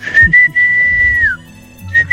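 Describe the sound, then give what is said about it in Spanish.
A person whistles a long, steady, clear high note that dips slightly at its end, then a short burst of the same note after a pause, with faint low sounds underneath. “¿Quién será la que silba o el que silba?”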